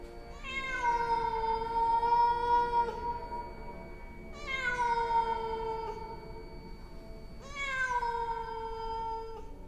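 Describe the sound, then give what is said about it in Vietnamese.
A cat yowls plaintively in three long, drawn-out cries, each starting high and sliding downward in pitch, separated by short pauses and heard alone without voices. “thì bỗng nhiên là con mèo. Con mèo của nhà Thu, nó kêu lên thảm thiết.”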